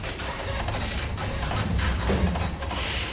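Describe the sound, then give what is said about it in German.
A printer runs while printing out papers, a loud whirring mechanism with repeated clattering bursts at an uneven rhythm throughout. “Gut, dann würde ich sagen, wir drucken die Sachen aus und dann können wir loslegen.”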